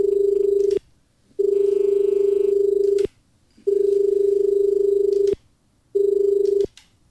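An electronic telephone rings for an incoming call, a steady, buzzy mid-pitched tone sounding in four long bursts separated by short silences.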